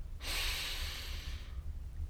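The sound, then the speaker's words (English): A single deep breath drawn in, a soft, airy hiss lasting just over a second before it fades to near silence. “I want you to close your eyes for a second and take a deep breath.”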